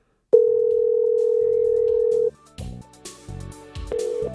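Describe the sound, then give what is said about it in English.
A voicemail tone before recording a message: one long, steady electronic beep lasting about two seconds, then a few brief muffled sounds. “Have reached voicemail. Please begin talking after the tone.”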